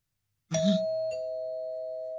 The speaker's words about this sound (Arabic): يبدو خجلا لأنه رن جرس الباب مرة واحدة